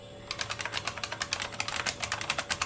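Controls of a time machine being set for the year 2022 in a radio drama: a quick, steady run of many light key clicks, heard alone.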